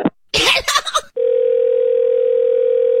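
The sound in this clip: A telephone dial tone hums after someone hangs up a call. A brief burst of throat or voice noise comes first, then the steady single-pitched tone starts about a second in and holds unchanged to the end.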